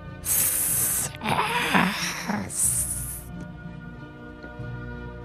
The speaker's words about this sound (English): eventually it does simmer down into a faint hissing